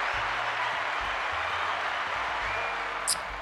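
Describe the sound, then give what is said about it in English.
Applause from a crowd fills the stretch as an even, continuous spread of clapping at a moderate level. “maybe some applause. Bingo.”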